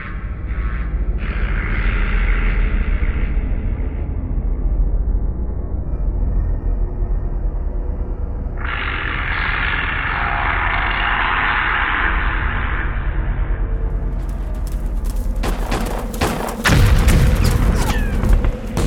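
Heavy gunfire and explosions during a battle ambush: after a long stretch of hissing noise, a dense cluster of sharp bangs and booms breaks out near the end, loud and rapid.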